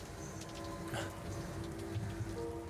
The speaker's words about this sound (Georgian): თვალებში წვიმა ჩაგდის.